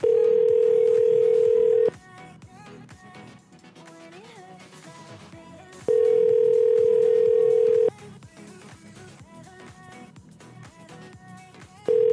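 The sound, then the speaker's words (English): Ringback tone of a telephone call placed to a landline: two long, steady, mid-pitched rings about two seconds each, separated by roughly four-second gaps. A third ring starts at the very end, and fainter background sounds fill the pauses. “Let's call John from Eric's number. See if he'll pick up for that. Although it's a landline. He probably can't see it. Let's try it anyway.”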